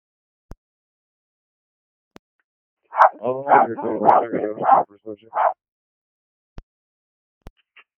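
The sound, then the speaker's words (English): A dog barks in a short burst of several yelping barks lasting about two seconds. Quiet follows, broken only by a few faint clicks. “All I hear is barking.”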